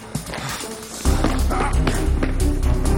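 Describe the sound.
A man running through a garage, his footsteps a steady series of low, heavy thuds that begin about a third of the way in and keep an even rhythm over a dense, noisy background.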